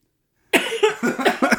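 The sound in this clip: Harsh coughing from someone whose food went down the wrong way. It starts abruptly after silence and runs as a fast string of several loud, choking bursts.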